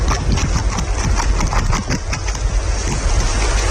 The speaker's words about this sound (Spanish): Ese es el sonido de dos castores europeos currando.